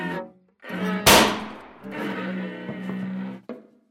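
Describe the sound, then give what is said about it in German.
A single loud gunshot cracks out sharply, set against sustained tonal sounds that continue before and after it. “Wer hat hier geschossen?”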